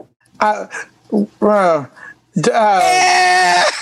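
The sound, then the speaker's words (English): A baby crying, starting with a few short wailing bursts separated by pauses, then breaking into one longer, sustained cry. “I would have given it to you if you'd said crying.”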